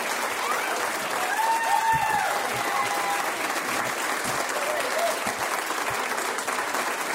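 A standing ovation of applause for a teacher receiving an Excellence in Teaching Award: dense, steady clapping from a crowd that holds at an even level throughout.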